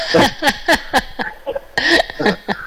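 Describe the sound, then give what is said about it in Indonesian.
A coughing fit from someone whose voice is hoarse after singing through a whole album at karaoke: many rapid, harsh voiced bursts in two runs split by a short pause, fairly loud, no talk. “sampai batuk.”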